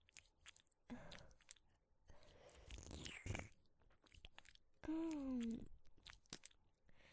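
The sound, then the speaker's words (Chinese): ASMR tongue licking deep inside the ear, faint, wet, sticky mouth sounds in scattered bursts, with a brief soft voiced sound among them. “像这样用舌头深深地探入弟弟的耳朵里面”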